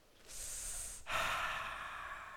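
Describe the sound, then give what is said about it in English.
A group draws in a deep breath together during a church sermon on marriage. A soft, airy inhale comes first, then a short pause and a louder, longer breathy exhale, with no talk. “everybody, first of all, take a deep breath.”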